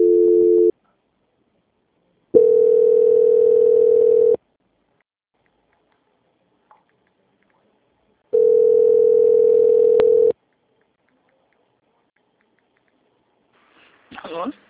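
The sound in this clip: Telephone line tone during a call transfer: three steady, low-pitched tone bursts, the first cut short and the others lasting about two seconds each, separated by silence, followed by a brief faint sound at the end.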